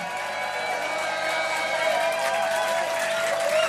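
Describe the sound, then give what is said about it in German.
Audience applause for the Ramatur orchestra after a concert: dense, steady clapping mixed with cheering, holding a fairly even level for the whole stretch. “Ein Riesenapplaus für das Ramatur-Orchestra. Das muss viel lauter sein. Ein Riesenapplaus für das Ramatur-Orchester.”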